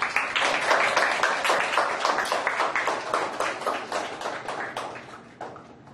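An audience claps to welcome teams of schoolchildren taking part in a quiz competition. Many sharp, distinct hand claps patter in quick succession and thin out slightly toward the end.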